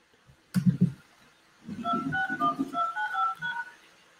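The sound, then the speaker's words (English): Telephone keypad touch-tones entering a meeting number and PIN on a call-in host line: a brief thump, a short pause, then a quick run of short paired beeps with soft low knocks beneath them. “Please enter your show or meeting number and press pound. Enter your 6-digit PIN number.”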